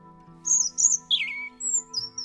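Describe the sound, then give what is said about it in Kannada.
Blue birds sing in a tree in a series of short, high chirps and trills that come in quick bursts, clear above a faint steady hum. “ಮರದ ಮೇಲೆ ಸಂತೋಷದಿಂದ ಹಾಡ್ತಿದ್ದ ನೀಲಿ ಹಕ್ಕಿಗಳನ್ನ ನೋಡ್ತು.”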